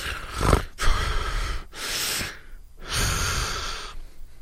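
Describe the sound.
A voice imitates sniffing someone's hair with several long, noisy nasal inhales in a row, breathy and fairly loud, separated by brief pauses.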